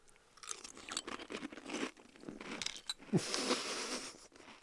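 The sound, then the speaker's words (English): Faint crunching and chewing as someone eats green onion Chex cereal with milk, many soft crisp bites in an uneven rhythm. “That truly tastes terrible. That tastes terrible. Yeah, you've got sweet, you've got onion, and you've got milk all kind of mixed together. Would not recommend. He's not a fan of the green onion Chex with milk,”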